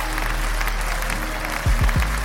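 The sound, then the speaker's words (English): Audience applause for news of adult-use cannabis approval in Illinois: a dense, steady wash of clapping, with a few low thumps near the end. “Round of a motherfucking applause, please.”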